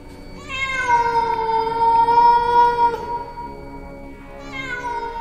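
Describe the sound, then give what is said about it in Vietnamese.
A short-haired black cat gives an eerie, hoarse yowl: one long, drawn-out wail lasting about two and a half seconds, then a second yowl that starts softer near the end. “Cái tiếng kêu này nó là một cái thứ tiếng kêu quái dị, khào khào từ cổ họng. Trong thoáng chốc, Hồng Ngọc nhận ra ấy là tiếng kêu của một con mèo.”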